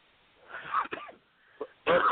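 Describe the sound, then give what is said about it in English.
Coughing and throat clearing over a call line that keeps breaking up: a few short, rough bursts, with a louder, throaty clear at the end. The sound is thin and band-limited, with no clear talk. “Oh, okay, you coughing. Why are you clearing your throat?”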